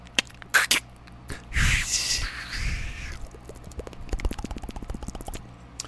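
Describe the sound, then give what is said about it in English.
A can of Pepsi cracks open with a few sharp clicks, then a burst of hissing fizz that lasts over a second, followed by a quieter scatter of fine crackling pops. “That's me cracking the can and making it fizz.”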